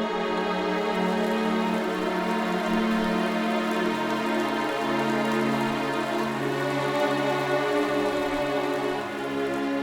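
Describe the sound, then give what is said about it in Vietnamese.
Rain falling as a steady, even hiss of drops with sustained musical tones held underneath it, keeping a constant level throughout. “Trên trời, từng hạt mưa bắt đầu rơi.”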